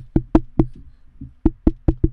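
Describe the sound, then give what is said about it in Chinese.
Knocking on a door: sharp, loud raps in two quick series, the first of about three knocks with a softer tap after, the second of about four, separated by a short pause. “有敲敲门哦”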